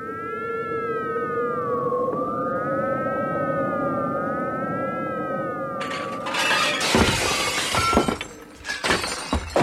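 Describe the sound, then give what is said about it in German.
Glass of a closed window shattering as someone flies through it, a few loud crashing bursts and clattering following a steady wavering, whistling tone. “bist du wahnsinnig? Du kannst doch nicht durchs geschlossene Fenster hereinfliegen.”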